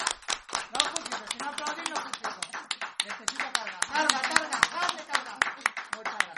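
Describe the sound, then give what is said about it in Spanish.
Audience applause after a talk on horror and gore in popular culture: many sharp, uneven hand claps ring out for several seconds, with voices mixed in among them. “Bueno, pues muchas gracias. Por favor, aplauso.”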